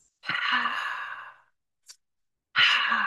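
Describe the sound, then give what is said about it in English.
A breathing exercise to calm the nervous system: a long, loud, sighing breath out, a brief faint breath sound after a pause, then another forceful breath out that starts near the end. “You do like two quick sniffs and then a long breath out.”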